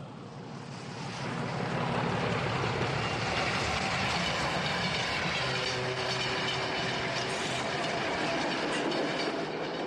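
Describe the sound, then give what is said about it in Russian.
Shunting diesel locomotive pulling a few black tank cars at a small rural railway halt: a steady, loud rumble and rolling clatter that swells over the first two seconds, then holds constant without letup. “Маневровый тепловоз тянет несколько черных цистерн.”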